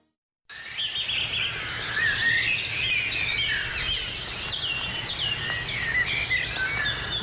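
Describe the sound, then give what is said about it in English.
A dawn birdsong chorus on an early-summer morning in Ireland rises after a brief silence into a dense, continuous mix of many overlapping chirps, trills and high warbling songs. “And that's the sound of birdsong at dawn on a morning in early summer in Ireland.”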